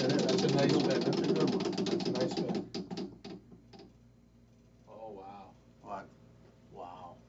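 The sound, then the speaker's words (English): A spinning wheel of fate ratchets with a dense, rapid clatter of clicks that gradually space out and slow until it stops. Voices then speak briefly over a quiet pause. “Give it a whirl. Here we go. That's a nice spin.”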